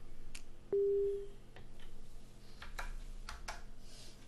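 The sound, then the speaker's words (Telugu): A phone call cuts off with one short, steady, low-pitched tone on the line, followed by a few faint scattered clicks against quiet line noise. “So call cut అయిపోయింది.”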